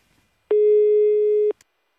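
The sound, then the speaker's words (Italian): Ringback tone of an unanswered telephone call: a single steady, mid-pitched tone lasting about one second, alone on the line. “Niente, mi sa che magari teniamolo sotto, perché vediamo se prima o poi rispondono.”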